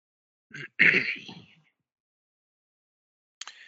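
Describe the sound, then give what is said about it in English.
A single rough, throaty cough, quiet, opening with a short catch and then a longer rasping burst that trails off, followed later by a brief faint noise. “now that one of us has been coughing, I'm definitely going to cover my face.”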